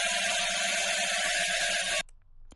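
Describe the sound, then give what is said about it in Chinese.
Rapid, continuous clicking of a bicycle freehub ratchet: a dense, even stream of fine ticks that cuts off abruptly near the end, leaving only a faint residue. “这个声音就是自行车的花鼓的声音。”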